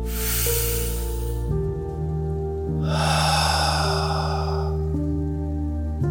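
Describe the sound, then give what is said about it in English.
A deep breath drawn in during a relaxation exercise, heard as long, airy breath noise over soft, sustained musical tones. There are two separate breath sounds, with a pause between them. “And out. And again. One more big deep breath in.”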